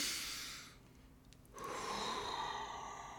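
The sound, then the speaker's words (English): A deep breath drawn with a clenched jaw, quiet and airy, made of two hissing phases split by a short near-silent gap, the second phase steadier and slightly louder. “That's probably not a relaxing breath if your jaw's clenched, is it?”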